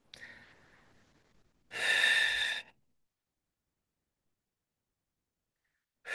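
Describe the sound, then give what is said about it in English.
A person demonstrates a slow audible exhale: a long, soft breathy release, then a louder voiced breath lasting about a second. Silence follows. “It was like this exhale. It was a slowing down.”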